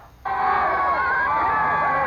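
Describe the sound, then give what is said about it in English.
A crowd gathered at a George Webb restaurant on North 76th Street, waiting for word after a predicted twelve straight wins, breaks into a loud, dense roar of voices that begins abruptly and holds steady. “So more than 30 years later, the prediction finally comes true, and this was the crowd that gathered at the Webb's on North 76th Street, waiting for word on what they'd get.”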